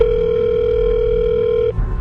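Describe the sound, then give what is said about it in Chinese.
A mobile phone call rings out as one long, steady tone that cuts off abruptly near the end as the call connects, leaving a brief stretch of low noise. “手机接通”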